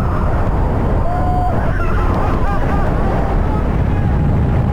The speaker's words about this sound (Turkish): Sörfçüler yağmur ve sert rüzgara rağmen boğazda ilerledi. O anlar aksiyon kameralarına böyle yansıdı.